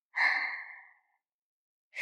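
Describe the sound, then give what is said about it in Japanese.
Slow, deep breathing during a guided breathing exercise: one long, airy breath lasting about a second, then a pause of silence before the next breath starts right at the end, with no talking. “深く吸って吐いて吸って吐いて、”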